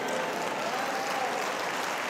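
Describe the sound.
Audience applause at a talk, a continuous, even patter of many hands clapping that holds steady throughout without a break.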